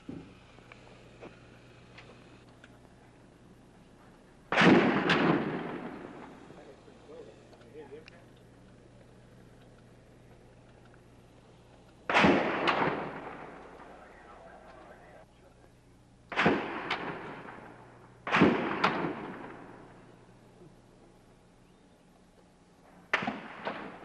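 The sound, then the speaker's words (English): Gunfire with bullets ricocheting off the top of a tower: five sharp, loud cracks spaced irregularly, each followed by a ringing, decaying tail, with quiet gaps between. “Ricochet bullets bouncing off the top of the tower.”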